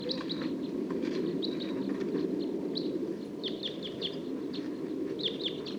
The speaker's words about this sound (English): Song of one of the wild birds. And the flock's taking off.